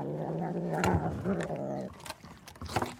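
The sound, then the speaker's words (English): Cat purring, a low, rough rumble with a rapid pulsing texture that runs strongly for about two seconds, then gives way to a few softer, breathy rumbles. “It's the sound of a purring cat.”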